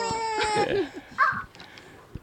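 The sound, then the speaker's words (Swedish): Fussing baby being given a pacifier: a few short, high, whiny vocal sounds and brief squeaks that come in uneven bursts and die down toward the end. “ursäkta, jag ger min bebis en napp här.”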